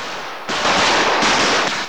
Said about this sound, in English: lets off a barrage of almost random shotgun fire into the air